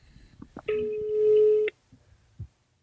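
Ringing tone of an outgoing telephone call to a mother: a single steady electronic ring lasting about a second, fairly quiet, framed by faint sounds of people nearby.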